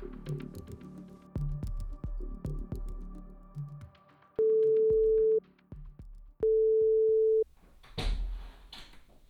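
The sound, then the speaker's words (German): Two short headphone-check tones, intended for the left ear first and then the right, sound as steady, identical mid-pitched beeps of about a second each with a short gap between them. Sparse percussive music comes before them and a noisy burst follows. “werden vor dem Hörspiel zwei kurze Signaltöne erklingen. Der erste Ton links, der zweite rechts.”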